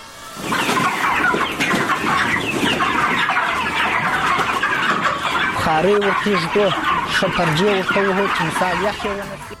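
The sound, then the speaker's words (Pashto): Many chickens cluck on a chicken farm in Kandahar, a dense, continuous chorus of overlapping calls that stays loud from start to finish. “په کندهار کې مو د چرګانو یو فارم ته ورولو.”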